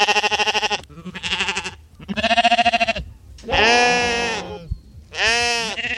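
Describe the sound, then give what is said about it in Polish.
Sheep used as grazing grass mowers near a reservoir and an old fort bleat five times, loud wavering calls separated by short pauses, with no other sound between them. “Na Zakrzówku i w forcie Bodzów możemy spotkać owieczki, które słyszymy też tutaj.”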